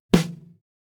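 A single standard snare drum strike on the drum head: a sharp, bright crack that decays quickly into a short, buzzy ring, heard alone.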